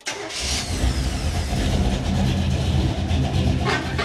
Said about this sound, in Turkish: Bu şeyin sesi muazzam dostum. Hem de bayağı iyi. Çok mutlu bir motor.